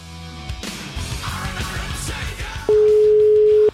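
A telephone line tone while placing a call: a single steady, mid-pitched electronic tone holds for about a second. It follows a stretch of muffled, noisy background.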